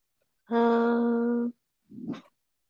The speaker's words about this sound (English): That's my dog. Sorry.